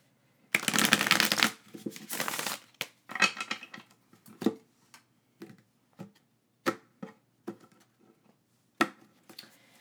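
Playing cards riffle-shuffled in two quick, dense bursts, followed by many sharp, separate taps and snaps as the deck is cut and squared, heard alone at a modest level.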